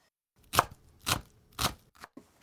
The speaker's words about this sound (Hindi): सबसे पहले प्याज को महीन काटना है, इसके लिए उसे 3 मिलीमीटर के छोटे छोटे चौकोर टुकड़ों में काट लीजिए।